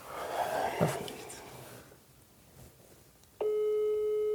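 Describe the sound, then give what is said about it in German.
A telephone ringing tone while calling someone, starting abruptly after faint rustling and breathy noises and holding as a loud, steady electronic tone to the end. “Den haben wir noch nie angerufen. Dann rufen wir den an.”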